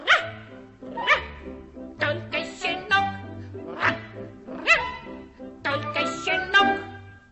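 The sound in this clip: A puppy yips and barks in a series of short, high, bright bursts, some with a quick upward slide, over steady low musical notes.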